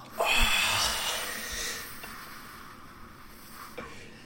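A deep exhale during a guided breathing meditation: a breathy rush that starts abruptly and fades over about a second and a half, leaving quiet.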